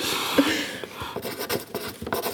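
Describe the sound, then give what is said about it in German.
Pens scratching on paper as players write answers in a letter-based word game: faint, dry strokes, a few soft scrapes at first, then many quick short scratches in the second half. “Wir schreiben.”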